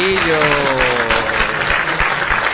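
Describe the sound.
Audience applause for International Armadillo Day: a steady, dense patter of clapping runs through the whole clip at a fairly loud level, with a voice briefly audible at the start.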